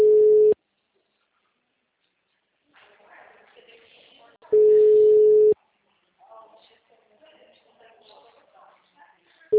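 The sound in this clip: Ringback tone on an unanswered phone call, steady one-second beeps repeating about every four seconds, with people talking quietly in the gaps.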